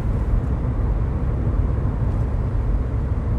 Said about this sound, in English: And this booze coming live from the cockpit of my MG with the roof down. So apologies, it's just a bit noisy.